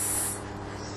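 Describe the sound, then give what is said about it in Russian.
A voiceless, whispered 's' hiss breathed out during a breathing exercise: one soft, steady hiss lasting about a second, strongest at the start and easing slightly as it fades. “С, буква С. Вы произносите тоже без голоса.”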